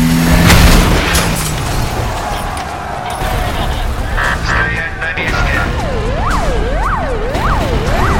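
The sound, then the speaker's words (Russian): A car fitted with a welded metal bull bar smashes through gates with a loud, heavy crash at the start. Dense, rumbling noise follows, and a wailing siren rises and falls near the end. “Машина разгоняется и сносит ворота.”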